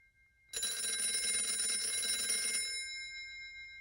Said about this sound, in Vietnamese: Tiếng chuông điện thoại reo lên inh ỏi, phá tan sự im lặng của cả ba.